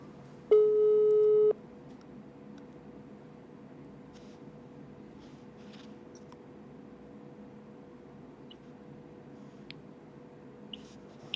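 A WhatsApp call tone sounds as the call fails to get through: a single steady electronic beep lasting about a second, followed by near silence with a few faint ticks.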